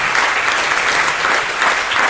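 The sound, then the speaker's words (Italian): Loud audience applause greets the opening of a live show in Recanati, a dense and even roar of clapping that holds steady from start to finish. “benvenuti a una puntata speciale di Tintoria live da Recanati. Applauso. E vai.”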